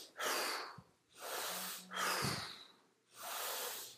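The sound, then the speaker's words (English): Forceful hyperventilation-style breathing, with strong in-breaths and hard blown-out exhales. Four loud, rushing breaths come in a steady rhythm with short gaps between them, and no talk. “notice I'm taking a really strong in breath and I'm really blowing it out. I'm getting rid of that CO2 so that I make room for oxygen, and I'm doing a kind of hyperventilation style.”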